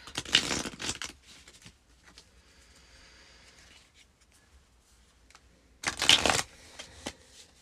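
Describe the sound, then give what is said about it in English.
Tarot cards being shuffled in two loud bursts of papery riffling and rustling, with quieter handling of the deck between them. “So let's pull some cards for 2023 for Libra Rising and see what needs to come up.”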